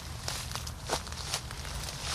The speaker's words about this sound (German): Okay, dann müssen wir ein bisschen durchs Beet laufen und durchs Gebüsch, aber wir haben ja dicke Jeans an und festes Schuhwerk.